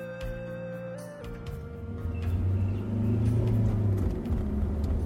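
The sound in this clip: Low engine rumble from a rental car driving south, a steady droning road noise that swells louder partway through and holds there, with no talking.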